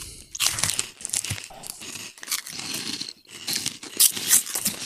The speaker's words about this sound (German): ich bin ja großer Erdnussflips-Fan, allerdings nur die Jumbos. Und deswegen dachte ich, ich probiere die mal